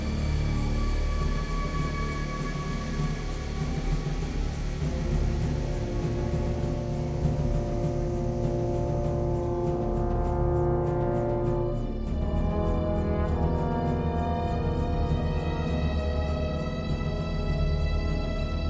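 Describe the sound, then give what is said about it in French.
Orchestral war theme from a 1996 war film score, with sustained low brass and string tones over a percussion ostinato whose even beat grows more prominent in the second half. The music is steady and loud, with no voices. “écoutez bien ce thème de guerre, extrait du film « À l'épreuve du feu » sorti un an avant Titanic en 1996.”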